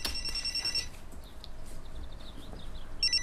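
An electronic telephone ring trills in high, rapidly pulsing bursts at the start and again at the end, with faint chirping blips in between over a low, steady background rumble.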